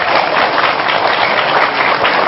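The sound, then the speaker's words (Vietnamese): Audience giving a round of applause at a gathering, with thick, continuous clapping from many hands that stays loud and level from start to finish. “Vậy các vị cho tôi tràng pháo tay đi.”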